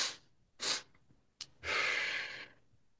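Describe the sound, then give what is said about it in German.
Physiological sigh breathing technique: two deep, quick inhales through the nose, then a longer, steady, soft exhale through pursed lips, heard as a breathy hiss with no talking. “Zweimal tief einatmen durch die Nase und durch gepresste Lippen ganz sanft ausatmen. Ich mache es mal in Kurzform vor.”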